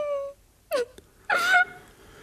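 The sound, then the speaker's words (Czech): A woman sobs and wails in three short, tearful bursts separated by quiet breathy pauses, while seated on a bench beside a tiled stove. “Zhroucena sedí Bětuška na lavici u kachlových kamen a usedavě pláče.”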